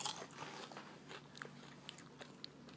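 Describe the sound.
Faint crunching of bites into a krupuk cracker: a few crisp, brittle cracks spread over a few seconds against a soft hiss, no talk.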